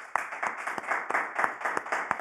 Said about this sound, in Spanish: Vamos a dar fuertes palmas al Señor.